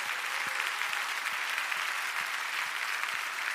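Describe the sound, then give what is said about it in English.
Audience applause for the dads in a church audience, a dense, even wash of clapping that holds steady from start to finish. “Can we just one more time give it up for the dads in the room?”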